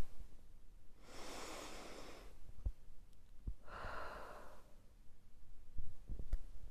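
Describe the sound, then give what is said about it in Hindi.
A long, deep breath taken during a mindful listening exercise: two broad, airy breath sounds of about a second each, separated by a short pause, with a few faint clicks and no talk. “एक लंबी गहरी सांस लेंगे”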